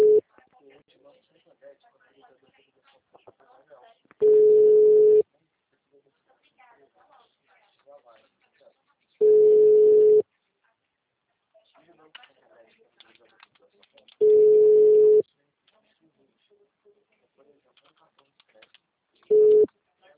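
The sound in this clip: Busy-style telephone tone after a dropped phone call: four long, steady beeps of about a second each, repeating roughly every five seconds, with the last cut short. Faint voices murmur in the gaps.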